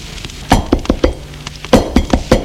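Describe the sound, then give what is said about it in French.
Knocking on a door: two bursts of several sharp, hollow raps in quick rhythm with a short pause between them, heard alone. “On a frappé à la porte.”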